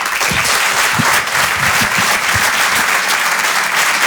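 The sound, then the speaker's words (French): Sustained applause from the audience of a live comedy show as a comedian is welcomed on stage, a dense, steady roar of clapping that stays loud and even throughout, with no voice rising above it. “En direct et en live sur Rire et Chanson, faites du bruit s'il vous plaît pour Didou.”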